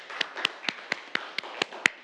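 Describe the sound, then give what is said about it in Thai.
Students clapping for a classmate in a classroom during a physics lesson: eight crisp, evenly spaced claps in a steady, brisk rhythm, with no talk over them. “ครับปรบมือให้กับเพื่อนด้วยนะครับ”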